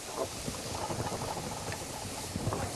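Food sautéing in a pan gives off a steady, dense sizzle that stays even and continuous throughout, with no talking.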